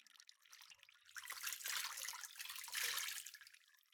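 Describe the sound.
Water is poured steadily over an arm up to the elbow, a faint continuous splashing flow that swells and eases twice.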